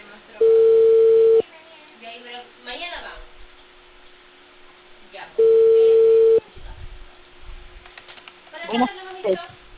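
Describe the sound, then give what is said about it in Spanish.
A telephone call being placed: two steady mid-pitched ringing tones, each about a second long and several seconds apart, with quieter voices and movement in the gaps between them. “lo voy a llamar ya.”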